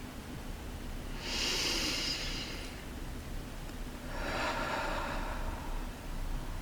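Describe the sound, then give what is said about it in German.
Slow, conscious breathing during a guided mindfulness exercise: two long, airy breaths, each a soft hiss lasting over a second. A quiet pause separates them, with a low steady background hiss beneath. “atme gerne ein paar Mal bewusst ein und aus.”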